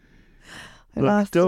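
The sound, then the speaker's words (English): A person takes a quick, audible breath in, a soft airy rush, then makes short voiced vocal sounds while playing a question game answered on one breath. “Does that count as a breath? Oh, shit, what am I doing? That completely counts as a breath.”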